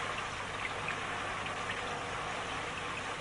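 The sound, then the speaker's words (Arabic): Sudden rain pours down on a football match in an animated series, a steady, dense hiss of falling drops that stays even in loudness throughout, with no voices. “هطول المطر المفاجئ سيؤثر لا شك.”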